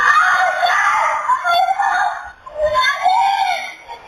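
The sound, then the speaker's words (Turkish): Child screaming and crying for help while drowning in a holiday-resort swimming pool in Erdemli, Mersin: high, strained wails that rise and fall in a few long, loud cries. “Suda çırpınan çocuğun feryatlarına ve yardım çığlıklarına havuz görevlisi Sadık Kurt yetişti.”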